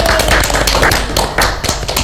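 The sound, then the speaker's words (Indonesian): Audience applause at an interview-style event, a loud, uneven run of sharp individual claps with brief gaps between bursts. “Kita beri tepuk tangan dong, Kak.”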